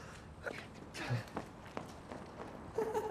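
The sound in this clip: Footsteps of two people running off on a freezing night: quick, soft, uneven footfalls at a faint level throughout.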